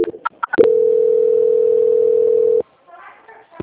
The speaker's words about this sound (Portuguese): Eu vou passar a senhora para o controle de qualidade. Só um minutinho, por gentileza, tá? Tudo bem. Transferência.